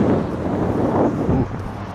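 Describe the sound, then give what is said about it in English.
Outdoor wind buffets a microphone, making a continuous low, rumbling roar that fills the whole stretch. It stays fairly loud throughout and eases slightly toward the end. “Sorry guys, there's wind.”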